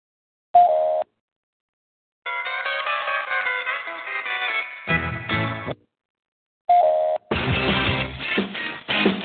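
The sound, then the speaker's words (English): A call-in radio show bumper jingle plays electronic tones: a short beep, a sustained bright synth passage, then a deeper swell, and after a pause a repeat of the beep leading into a denser burst of layered tones. “So I'll play the bumper and then I'll play that.”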